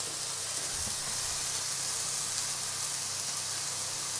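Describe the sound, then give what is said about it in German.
Onions sizzling as they are browned in a pan before going into burger patties, a steady, even hiss that continues unbroken throughout. “Wir rösten die Zwiebeln vorher ein bisschen an, nicht, dass die uns jetzt dann im Patty rot drin sind.”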